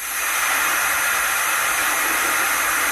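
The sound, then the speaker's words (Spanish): A pressure cooker releasing steam in a loud, steady, bright hiss that swells up in the first moment and then holds constant throughout, with no voices. “El sonido de la olla express.”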